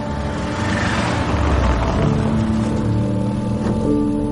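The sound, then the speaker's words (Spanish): A car drives through rural countryside, its engine giving a steady, loud droning hum with a constant road rumble that continues throughout without a break. “El coche atraviesa distintos paisajes rurales.”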